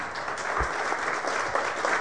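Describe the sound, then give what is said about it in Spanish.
Congregation applause during a sermon on the Book of Joshua: a short stretch of steady, moderately loud clapping with a few sharper individual claps standing out. “Dale un aplauso, por favor.”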